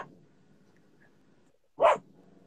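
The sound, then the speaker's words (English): A single loud dog bark rings out near the end, a short sharp burst that stands alone over a low steady background hum. “Sorry about the dog.”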